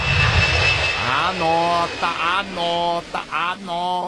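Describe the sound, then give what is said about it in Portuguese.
An airplane's engine drones overhead in a steady, loud roar that holds throughout, while a person talks over it. “Ó, o avião aí, ó. Ó, a bagaça no ar, ó.”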